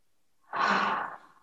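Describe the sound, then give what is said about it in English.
A single breath out through the mouth during a guided breathing exercise: a soft, airy, fairly loud whoosh that starts abruptly, holds steady for about half a second, then tapers away, with no voice over it. “exhaling out through the mouth”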